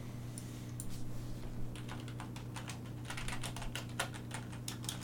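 Typing on a computer keyboard: a long run of quick, uneven key clicks, some in rapid bursts, over a steady low hum, with no talk.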